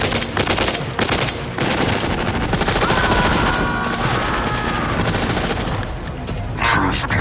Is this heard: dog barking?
no

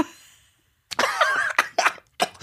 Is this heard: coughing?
yes

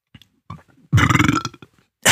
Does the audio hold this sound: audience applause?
no

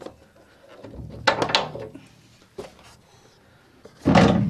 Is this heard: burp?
no

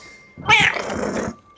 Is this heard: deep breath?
no

